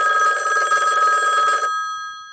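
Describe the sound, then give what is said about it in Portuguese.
A telephone bell rings loudly in one continuous trill of about a second and a half, then stops and leaves a short fading ring. “Era pra atender o telefone”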